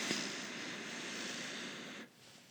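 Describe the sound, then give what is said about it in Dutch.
A deep breath drawn in through the nose during a guided breathing exercise: a soft, airy hiss held evenly for about two seconds, then cut off abruptly, with no talk over it. “Dus adem maar diep in door je neus.”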